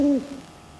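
An owl hooting once: a single short, low tonal hoot that ends abruptly, followed by near silence.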